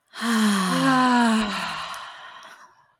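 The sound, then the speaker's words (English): A single long, deep exhale, voiced like a sigh, released after a breath drawn in through the nose at the close of a guided breathing exercise. It starts loud and steady, then gradually fades away over about two seconds. “And one deep breath in through the nose. And let it out.”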